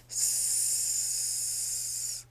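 A steady voiced 'sss' hiss from a person doing an abdominal breathing exercise, hands on belly or waist and muscles held tense. One unbroken hiss of about two seconds starts and stops abruptly over a low hum.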